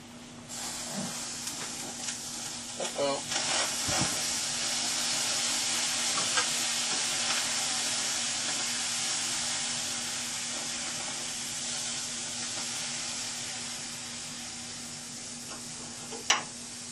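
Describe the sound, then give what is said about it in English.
Steady, loud sizzling hiss of a pot boiling over on a stove, continuing evenly throughout with a few faint clicks and one sharp click near the end. “That's not so good. It started boiling over. I had to turn off the heat fast.”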